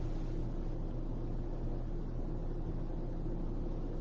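Air conditioning or fan noise: a constant low rumbling hum with a broad airy hiss, steady and unchanging in level for the whole stretch.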